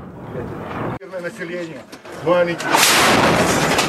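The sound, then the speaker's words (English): Artillery shells hit near Kyiv during fighting: a sudden sharp bang, then a loud, broad roaring blast that carries on, with a person talking over it. “talks to establish safe corridors for civilians to escape the fighting are making little progress. The shells continued to fall Monday night.”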